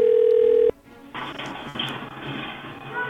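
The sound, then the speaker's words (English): A steady telephone tone on an outgoing call sounds loud and level for under a second, then cuts off abruptly into a rough, noisy line hiss that continues to the end. “now I'm going to call her back, and I don't know what I'm going to say. She's probably not going to pick up.”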